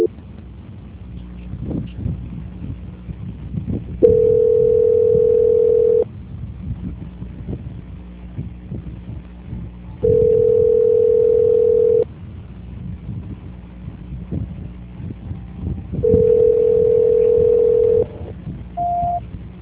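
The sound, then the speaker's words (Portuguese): Telephone tones while a call is being transferred: three long, steady mid-pitched tones, each lasting about two seconds and separated by stretches of line noise, then a brief higher beep at the end. “Só um minutinho que eu vou transferir essa ligação. Transferência.”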